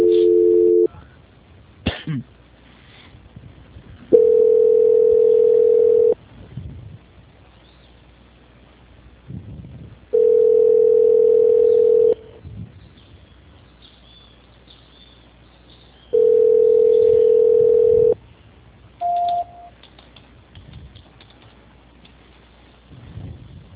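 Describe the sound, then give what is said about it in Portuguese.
A telephone call transfer tone repeats as a steady beep about two seconds long, recurring at regular intervals of roughly six seconds, with softer rustling noise between the beeps. “Eu estou tentando passar a sua ligação, tá? Tá bom. Transferência.”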